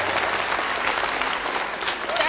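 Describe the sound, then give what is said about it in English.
Audience applause rolls on at an even, full level from start to finish, a dense hiss of many hands clapping with no pauses. “Signals applause. Please. I have drunk my fill of the clapping.”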